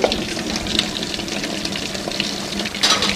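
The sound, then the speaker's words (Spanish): Dishes being washed under running water from a tap: a steady, moderately loud rush and splash that runs throughout, with brief brighter surges of water near the end. “sumida en sus pensamientos, lava mecánicamente las vajillas.”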